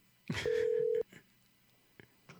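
An outgoing telephone call gives a single steady, mid-pitched ring-back tone lasting about half a second. A few faint clicks follow.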